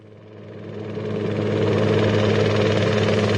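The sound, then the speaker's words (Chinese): A police helicopter hovers in the air, producing a steady, low droning rotor and engine hum. The sound swells over the first second and a half, then holds loud and even with no voices. “警方的直升机在空中悬停”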